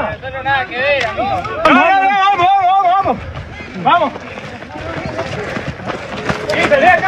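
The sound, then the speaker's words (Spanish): Rapid footsteps of runners in a race pound along under loud shouting and cheering voices that dominate throughout. “Con el audio del ambiente, los pasos son, mirá, este, tratando de correr una carrera que es un tren.”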